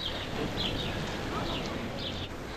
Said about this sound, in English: And notice, no music, just birds chirping.